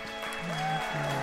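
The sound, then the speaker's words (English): Applause from a game show studio audience, a brief, dense burst of clapping held at a steady level throughout. “The audience is going wild.”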